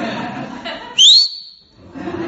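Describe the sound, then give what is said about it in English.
A person whistles a single short, clear note that slides upward in pitch, loud against the talk heard before and after it. “taught me to whistle, so get ready”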